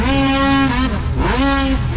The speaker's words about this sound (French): Beaucoup d'action samedi le 8 août lors de la 20e édition du championnat provincial de course de motoneige sur l'eau à Frampton.